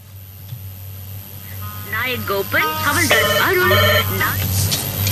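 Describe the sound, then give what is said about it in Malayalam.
A ringtone for an incoming phone call: a short electronic melody of bright, repeated beeping notes over a steady low hum. “Okay, അടുത്തൊരു call വന്നിട്ടുണ്ട്, കോളിലേക്ക് പോവാം.”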